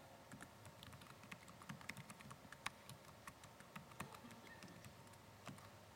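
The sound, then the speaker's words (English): Typing on a computer keyboard: many rapid, irregular key clicks, some sharper than others, sounding faint and alone with no talk. “So in this case, I'm just going to go ahead and type”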